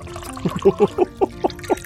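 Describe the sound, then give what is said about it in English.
Cocoa glugs as it is poured into a cup, a quick rhythmic run of short, wet bursts with a hollow, resonant tone, fairly steady in pace and loudness. “Can I interest you in a cup of cocoa? Perhaps with a splash of something stronger? Just say when.”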